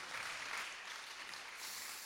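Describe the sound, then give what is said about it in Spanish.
A church audience applauding Christ Jesus during a service, a faint, steady wash of many hands clapping that continues evenly throughout. “Démele un buen aplauso a Cristo Jesús.”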